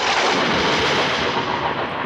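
Thunder from a lightning strike on a construction crane during a heavy storm: a loud, dense rumbling crash that holds steady across the whole clip with no break.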